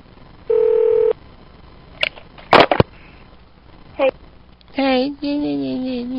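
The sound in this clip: Telephone tones from a call: a steady electronic beep, then a few short dialing blips. Voices follow.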